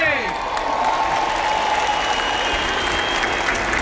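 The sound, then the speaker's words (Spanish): Crowd cheering and applauding as a procession passes close by through aisles among the people, a steady, dense roar of clapping and voices that holds at an even level throughout. “Va a pasar muy cerca de la gente, lleva un ritmo sin pausa pero continuado a través de esos pasillos, a través de la gente, y este es el sonido directo.”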